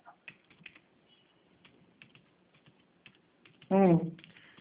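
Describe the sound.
Scattered keystrokes tap out an email address on a computer keyboard, soft and uneven in rhythm. A brief voice rises near the end.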